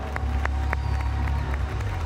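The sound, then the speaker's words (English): A church audience claps in a hand clap of praise: a dense, steady patter of applause with some crowd noise, holding at an even level throughout. “Come on, let's give him a big hand clap for praise.”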